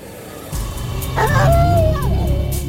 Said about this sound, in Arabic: وقعد في الأرض وبدأ يزوم أكتر، بدأ يهوهو أكتر بطريقة أعلى،